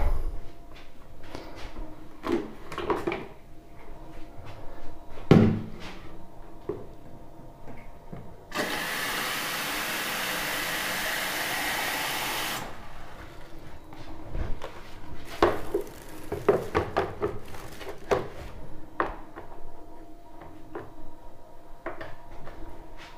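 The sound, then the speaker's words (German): Kitchen clatter while coffee is made: dishes knocking, cupboard and mechanism clicks, then a loud continuous rushing stretch of several seconds in the middle before more scattered clinks and knocks. “Ja, dann wollen wir uns mal einen Kaffee machen.”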